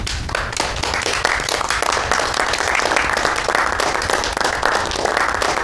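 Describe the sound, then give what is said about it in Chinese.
An audience of delegates at a political meeting applauds in tribute to two party leaders. The clapping is dense and steady and lasts for the whole clip. “我提议各位以掌声向二位致敬。”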